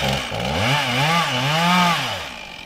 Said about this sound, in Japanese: 今あの倒す方向をしっかり確認しながら受け口を切ってます。